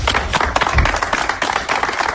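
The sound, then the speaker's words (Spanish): Applause for a SAMU emergency medical team: many hands clap in a dense, lively patter with a few heavier low thumps, keeping a steady level throughout. “Pues ahí está todo el equipo del SAMU, y ese aplauso, ese mensaje y ese aplauso también para todos.”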